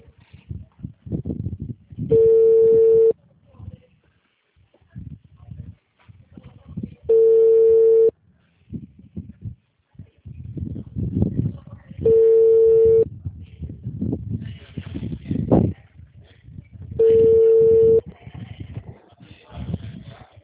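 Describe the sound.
Telephone ringback tone during a call: four long, steady, mid-pitched beeps spaced evenly about five seconds apart, with a voice talking in the gaps between them.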